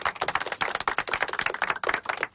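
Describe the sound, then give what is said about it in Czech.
Applause from a crowd, with dense, continuous rapid clapping that holds at an even level throughout with no voices on top. “Patří ti potlesk.”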